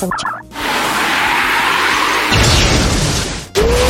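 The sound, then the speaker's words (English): A sap bomb attack sound effect in a video game battle: a sharp opening burst, then a sustained loud, noisy rush, and a brief rising tone at the end. “Full Rosa used sap bomb. Doving is covered in tree sap.”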